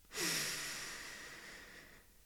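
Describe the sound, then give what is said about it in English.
One long, deep, airy breath lasts about two seconds, soft and faint, alone with no voice. “Take a nice deep breath in of confidence and personal power.”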